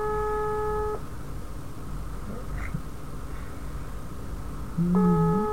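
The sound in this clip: An outgoing phone call rings without being answered: a short burst of electronic ringback tone at the start and another near the end, separated by a long, quiet stretch of low hiss.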